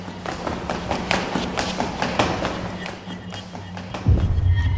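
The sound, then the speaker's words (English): Rapid footsteps run down a flight of stairs in a quick, even series of many thudding steps, followed at the end by a louder, low rumbling burst. “Oh, and we're running. We're running down the stairs.”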